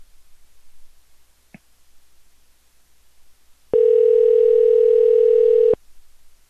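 A telephone call ringing on the line: a faint click, a pause, then one loud, steady ring tone lasting about two seconds before it goes quiet.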